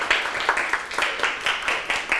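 Students clapping for themselves in a classroom: sharp bursts of hand claps in a quick, steady beat, fairly quiet, with no talk over them.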